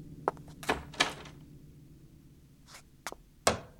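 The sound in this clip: A bathroom door being shut and locked, heard as a few sharp knocks and thuds of moderate loudness with quiet gaps between them.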